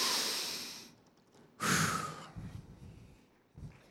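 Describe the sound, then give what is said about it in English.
A deep breath, heard as long, breathy rushes of air drawn in and let out, fairly loud and alone without talk, followed by a shorter breath at the end. “Let's take a deep breath.”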